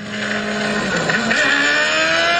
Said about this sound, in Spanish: Esa era una moto, creo que era una Ninja. Pero fallando, fallando.